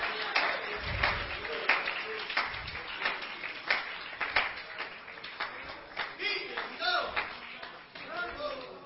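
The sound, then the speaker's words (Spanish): Applause from a church audience honouring Christ, with dense, steady clapping and a loud voice speaking over it throughout. “El aplauso sea más fuerte, que Él se lo merece. El aplauso no es para mí, el aplauso es para Cristo.”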